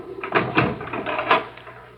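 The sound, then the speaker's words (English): A door is opened, with a few dull knocks and clunks from the handle and frame that rise and fall over two seconds. “will the foreman please come to the door and I shall open it?”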